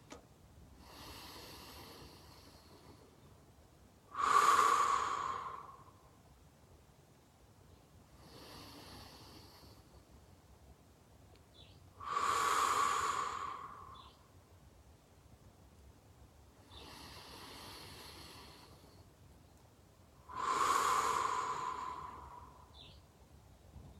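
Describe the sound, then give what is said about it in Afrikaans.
Quiet, deep breathing done together in three slow cycles. In each cycle a soft, airy breath is followed by a longer, louder rushing one, with pauses between the cycles. “Nou haal ons 'n paar keer lekker diep saam asem.”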